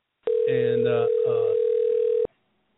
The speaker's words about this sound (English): let's see if I can get a phone call in here and see what happens and see if it works.